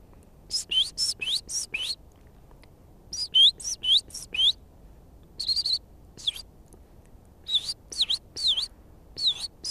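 A person imitates tit bird calls with high, whistled chirps. The notes come in quick runs of about five, then single calls, then another rapid series, with short silences between groups.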